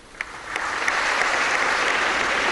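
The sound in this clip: Applause at a medal ceremony where an officer receives a distinguished service medal before the President. After a sharp first clap, dense clapping from many hands holds at a steady, even level with no voices.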